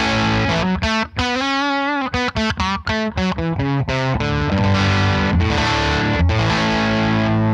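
A guitar plays through a distortion pedal with the gain set very low, giving a light, mid-crunch overdrive grit. Quick picked notes and short chord stabs come first, then fuller chords ring out and sustain to the end.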